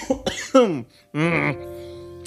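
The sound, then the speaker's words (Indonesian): Coughing: a few sharp bursts followed by a longer, rough, voiced cough with a throaty, strained tone, fairly loud and with no talking. “batuk”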